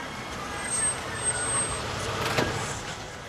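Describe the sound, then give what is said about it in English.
A car pulls into a motel parking lot at night, its engine a steady, low rumble that holds level throughout with a few faint bumps. “He sees car headlights pull into the parking lot.”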